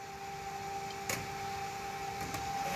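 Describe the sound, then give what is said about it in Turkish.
A lens shaping machine works a hard convex glass disc under a diamond cutting wheel, giving a steady, quiet mechanical hum with constant tones and a few faint ticks. “Bu makine lensin mükemmel bir kıvrıma sahip olmasını sağlıyor.”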